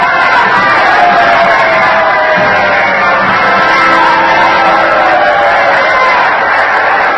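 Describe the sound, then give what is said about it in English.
A packed theater audience stands and cheers to welcome President Lincoln, a loud, steady roar of clapping, shouts and whoops that continues without a break. “The audience is standing. Mr. Lincoln is acknowledging the welcome. Beaming, he nods his head and waves to the jam-packed crowd.”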